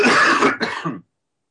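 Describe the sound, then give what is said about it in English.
A cough and throat clearing interrupt conversation: two harsh, raspy bursts in quick succession, the first longer and the second shorter, followed by silence. “excuse me, I'm just going to have to cough.”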